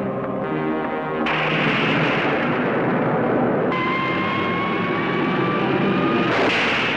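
Torpedo explosions during an undersea sci-fi battle scene, a loud sustained roaring rumble broken by a few abrupt surges, with a steady tone sounding through part of it and no talking.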